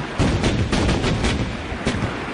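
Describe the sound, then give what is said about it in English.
A ship's great guns fire during gun drill, a dense, rumbling roar with a few sharp cracks that holds at an even, loud level throughout, with no voices. “At 7:30, exercise the great guns.”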